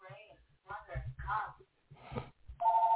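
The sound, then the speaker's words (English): A telephone rings at a relative's house as a loud, steady electronic tone that cuts in at the very end, after someone has been speaking. “And excuse the phone in the background.”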